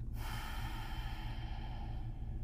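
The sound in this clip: A long, smooth exhale out through the nose during a breathing exercise: a soft, airy hiss that starts abruptly and holds steadily for over two seconds, thinning slightly toward the end.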